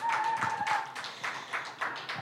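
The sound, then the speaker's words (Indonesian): An audience claps at a music event as band members are called up to the front, a loose run of quick, uneven claps at moderate loudness. “Yeay, boleh kasih tepuk tangan dong.”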